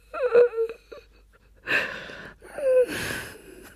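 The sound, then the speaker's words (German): A girl crying herself to sleep at night: a few moaning, whimpering wails with breathy, gasping sobs between them, fairly quiet and alone. “An diesem Abend weinte sich Lillemur in den Schlaf.”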